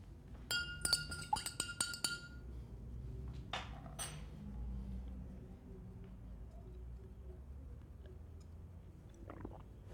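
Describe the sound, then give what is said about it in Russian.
Iodine drops stirred into a glass of water: a spoon clinks brightly against the glass in a quick cluster of sharp, ringing taps, followed by softer handling and low rustling sounds. “капает йод в стакан с водой, оборачивается на какой-то шум, потом добавляет еще 2 капли, размешивает и выпивает воду с йодом.”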